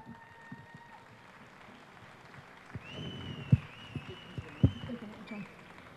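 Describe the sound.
An audience applauds to welcome a speaker. After a brief voice and a quieter stretch, a soft, sustained patter of clapping builds, with a couple of sharper, louder claps standing out.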